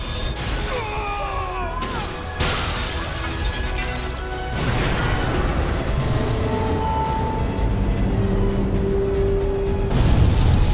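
Explosion of a system core overloaded with energy in a dubbed film, a loud sustained crash with shattering, rumbling debris that surges in steps and swells again near the end.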